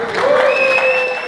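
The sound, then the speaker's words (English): A short burst of applause at the groundbreaking of the 11 Park stadium in Indianapolis, where city leaders broke ground. The clapping is brief and moderately loud. “That's the sound of Governor Holcomb, Indianapolis Mayor Joe Hogsett, and many other city leaders breaking ground on the new park Wednesday,”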